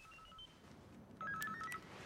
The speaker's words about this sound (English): Mr. Bennett goes to slap Ivan, but stops when his phone rings